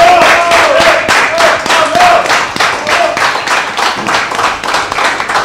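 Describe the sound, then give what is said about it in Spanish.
A packed room gives loud, dense applause at a live acoustic music session, with rapid overlapping hand claps that keep up a strong, even pace throughout. “Les vamos a pedir un fuerte aplauso a todos.”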